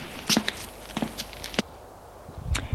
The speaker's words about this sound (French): Enfin, il entend des pas dans les escaliers.